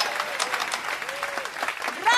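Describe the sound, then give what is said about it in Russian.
An entire concert hall applauds a young violinist after his performance, the clapping a busy, continuous patter that runs under a narrating voice throughout the short stretch. “Женщина, сидящая рядом с мальчиком, поднимается, аплодирует. Поднимается, хлопая в ладоши, весь зал.”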